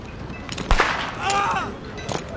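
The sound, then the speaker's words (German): Gunfire from a shootout in a rural setting: a few sharp cracks, one louder report early and another near the end, with a brief voice between them. “Da drüben. Gibt es eine Schießerei, ich weiß.”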